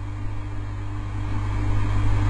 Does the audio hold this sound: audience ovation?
no